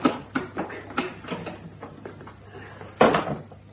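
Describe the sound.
A heavy cellar trapdoor is opened, with a run of wooden knocks, creaks and clatters, then a louder thump near the end. No voices are heard.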